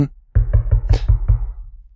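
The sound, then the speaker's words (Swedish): Knocking on a door: six firm, dull knocks at a quick, even pace, the fourth slightly sharper than the others, each ringing briefly before the next. “Ja, så då får du knacka på. Ja, då knackar jag på.”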